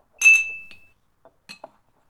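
Glasses clink together in a toast: one bright chime that rings on briefly, followed by a few lighter, shorter taps.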